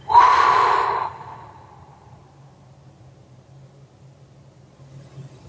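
A deep exhale during a breathing exercise: one loud, breathy rush lasting about a second, then tapering off into near quiet over a faint low hum.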